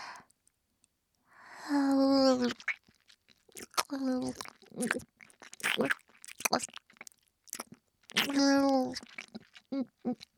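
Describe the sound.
Close ASMR mouth sounds of ear eating: many sharp wet clicks and smacks scattered throughout, interspersed with a few soft, breathy voiced moans.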